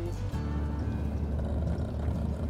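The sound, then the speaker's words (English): Car engine rumbling as it drives onto a farm with many buildings, a steady low drone with a faint whine above it and no voices. “She drives into a farm with lots of buildings and parks. We're here.”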